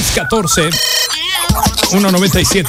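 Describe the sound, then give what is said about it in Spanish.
A WhatsApp ringtone chimes briefly in bright, steady electronic tones, heard under ongoing talk and music. “El WhatsApp.”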